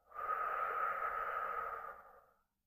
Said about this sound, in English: We're going to take a big breath in and out.